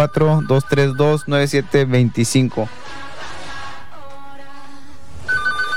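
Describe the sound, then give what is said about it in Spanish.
An incoming call makes a telephone ring after a stretch of talk. The steady electronic ringing runs on to the end, partly under the voices. “Me estás dando una llamada”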